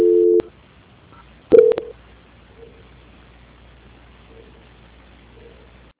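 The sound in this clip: Telephone call transfer tones: a short steady tone at the start, then after a pause a brief burst of louder beeps, followed by faint, near-silent line noise.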